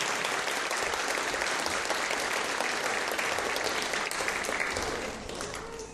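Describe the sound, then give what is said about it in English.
Applause for the actors after a scripture drama at a church service: steady, full clapping from many people that continues throughout and fades slightly at the end. “A round of applause to our actors.”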